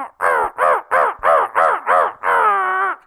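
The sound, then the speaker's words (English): Crow calls blown on a handheld call by a turkey hunter: seven harsh, nasal caws in a steady rhythm, the last one stretched out longer. They are loud and clear with no talking. “put them about 10 foot away from you and do your crow calls.”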